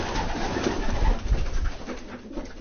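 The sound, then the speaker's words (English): Pigeons cooing in a pigeon loft. Low, soft, murmuring coos overlap in a steady, continuous rumble with no talking. “I go to the pigeon loft. Let me go to the pigeon loft.”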